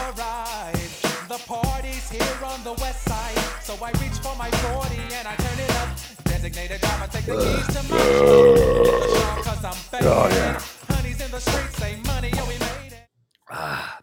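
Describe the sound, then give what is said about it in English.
A long, drawn-out, rough burp with groan-like pulses is followed near the end by a brief clatter as a can is thrown into the garbage. “You hear him burp. You hear him throw the can in the garbage.”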